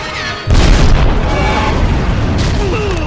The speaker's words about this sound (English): Okay, so all the C4 explodes